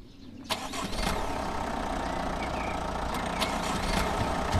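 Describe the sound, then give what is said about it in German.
Car engine starting as caregivers drive off after a team meeting. A sharp start comes about half a second in, then a loud, steady running hum with a few faint clicks on top. “Nach der Teambesprechung beim Verein Lebenshilfe Brandenburg in Königs Wusterhausen fahren die Betreuerinnen und Betreuer los.”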